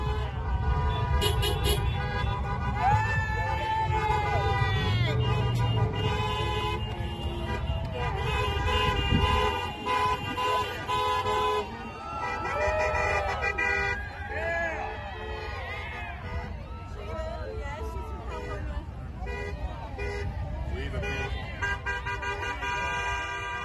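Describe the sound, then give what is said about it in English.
Trucks honk and rumble as they drive down a highway past thousands of waving people. Loud, overlapping horn blasts and engine noise continue throughout, with crowd voices mixed in. “But just here is the sound of people waving at the trucks as they motor down the highway.”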